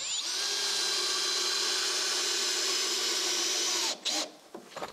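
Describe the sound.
Power driver whining as a carpenter drives screws into timber walls, a loud, steady high-pitched motor drone held for about four seconds before it cuts off with a brief clatter.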